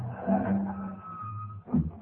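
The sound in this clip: A car pulling up outside a building and stopping: a low engine rumble swells and eases, then a short sharp burst of tire noise comes near the end.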